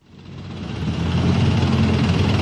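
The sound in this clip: Roar of armoured vehicle engines at a military parade rehearsal, a deep, broad rumble that swells quickly from quieter to a loud, steady drone.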